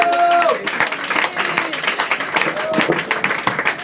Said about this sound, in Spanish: Un aplauso a Andy y también a la compañera Mercy.